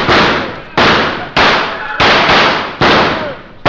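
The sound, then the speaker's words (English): Gunshots fired at a fleeing man in a drama, a rapid series of loud, sharp cracks, each followed by a brief decaying tail, spaced under a second apart. “Fire at him!”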